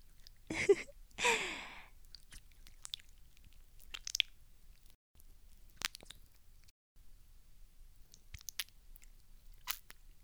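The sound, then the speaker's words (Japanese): Wet squelching of slippery fluid on fingers: a few soft, squishy clicks scattered sparsely through the quiet clip, after two breathy bursts near the start. “あなたの垂れ流したエッチな液の音なんだよ。”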